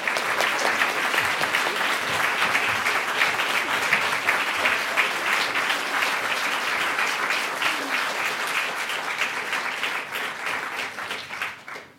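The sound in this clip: Sustained audience applause welcoming two authors onto a stage at a literary event, a dense and steady roar of many hands clapping for about twelve seconds that fades out at the end.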